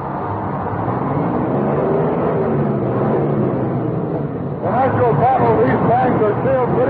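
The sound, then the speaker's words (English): An army tank drives over rough test terrain at Aberdeen, producing a loud, continuous low rumble of engine and tracks that holds steady, with a brief dip before growing slightly louder again. “Here at Aberdeen, they have a bit of terrain designed to test a tank's toughness and a man's bridge work, and we're going to have a go at it right now.”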